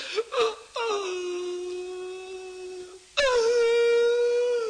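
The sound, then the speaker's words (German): Acted whimpering and crying from a small kobold character: short sobbing gasps first, then a long, high, wavering wail that stops abruptly. A second tearful wail starts soon after. “Das ist doch kein Grund zum Weinen.”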